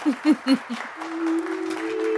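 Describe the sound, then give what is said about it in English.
A crowd of faction leaders breaks into applause as someone steps through the doors. A few short vocal sounds come first, then a steady wash of clapping with a sustained tone beneath it. “as you step through the doors, there is an uproarious applause”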